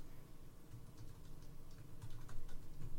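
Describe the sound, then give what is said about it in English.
Typing on a computer keyboard: a quick, faint, irregular patter of key clicks, with no talk. “Okay, you type AOT at OST.”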